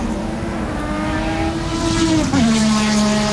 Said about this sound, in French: Maison avec jardin, proximité circuit automobile.